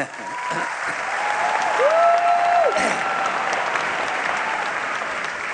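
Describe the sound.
Audience applause for a political speech. Loud, steady clapping from a large crowd holds evenly for several seconds.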